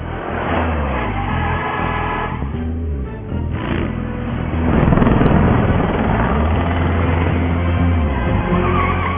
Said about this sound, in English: Oh, cool! A helicopter! Must be covering the high-speed chase.